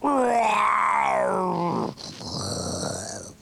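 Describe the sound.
A voice imitates a dragon's fierce, howling hello: a long groaning growl that swells and sinks in pitch, followed by a rougher, breathier growl.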